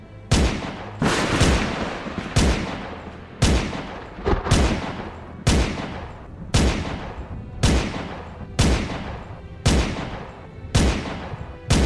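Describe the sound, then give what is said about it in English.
Many loud gunshots fire in a steady, evenly spaced rhythm, each blast sharp and broad with a short decaying tail, and no voices over them. “I had a gun this whole time!”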